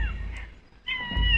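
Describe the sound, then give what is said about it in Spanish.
A cat meows as it comes closer for food, giving a brief meow at the start and a longer, clear meow near the end over a low background rumble. “Ya les manda a los dinosaurios, ahora se acerca el gato.”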